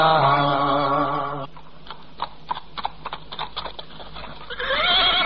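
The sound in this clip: A white horse neighs and balks: a loud, harmonic whinny opens, a run of sharp hoof clops and stamps follows, and another whinny closes.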